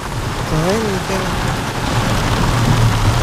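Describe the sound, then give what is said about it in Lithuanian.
A heavy downpour of rain roars as a dense, steady hiss at constant loudness throughout, with no break in the pounding. “Oi, kokia liūtis. Bet griaustinės toli, žaibuoja toli. Bet liūtis garsas.”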